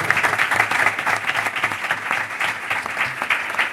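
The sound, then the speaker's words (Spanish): Sustained audience applause closes a conference talk on workplace training and HR, with many hands clapping densely and steadily for the whole stretch, loud and unbroken, and no voices on top. “Le damos un aplauso.”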